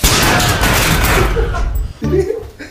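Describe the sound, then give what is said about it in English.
Furniture and walls break apart in a video game as a dense run of crashing, crackling impacts that rattles on for about two seconds, dips briefly, then flares into another short burst of crunching debris. “From the furniture to the walls, and eventually, the entire thing! Yeah! Dude, breaking stuff is so fun!”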